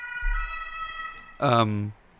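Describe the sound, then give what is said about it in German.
A siren from outside holds a steady, layered tone for just over a second. A short burst of voice follows, and the siren stays faint underneath. “Also, wenn ihr jetzt eine Sirene gehört habt, das war draußen.”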